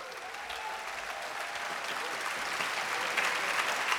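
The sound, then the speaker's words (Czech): Applause from a concert audience for the arranger of a band's music: dense, steady clapping that fills the whole stretch at an even level and builds slightly toward the end. “A já bych teď chtěl veliký potlesk pro toho člověka, protože to, co jste viděli do půlky, to všechno aranžoval Ryško Šanda!”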